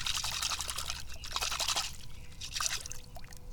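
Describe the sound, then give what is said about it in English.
Running water rinses a red golf ball, making a faint, steady trickling and splashing that swells and eases a little throughout, with no talking. “I want to rinse this red golf ball off so I can put it in my pocket.”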